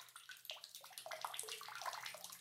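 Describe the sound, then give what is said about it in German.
Water drips and trickles steadily: many small, quick plinks over a soft running splash, faint throughout. “Da tropft etwas, keine Ahnung.”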